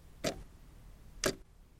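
Two sharp, crisp ticks of a clock, about a second apart, stand out over a faint, steady background hiss.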